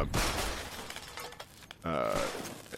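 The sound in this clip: Robo Scorpions exploding in a video game: a sharp shattering blast at the start followed by crackling, debris-like bursts, then a man talks over the noise near the end.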